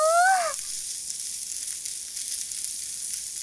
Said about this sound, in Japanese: カルビは油が多いからジュワーって音が大きいですよね。